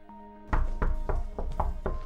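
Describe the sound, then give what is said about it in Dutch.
Children knock on a door with a quick, even series of six sharp, loud knocks. No one speaks. “En nadat ze gezongen hebben bij Paulien en een snoepje hebben gekregen, kloppen ze op mijn deur.”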